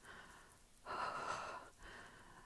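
A person gasps for breath, one long, rasping, noisy inhale followed shortly by the start of another, both faint and breathy with no speech.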